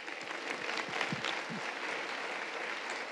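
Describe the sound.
Audience applause welcomes a speaker at an evening panel event about trees: a steady, fairly faint wash of clapping that carries on evenly for about three seconds.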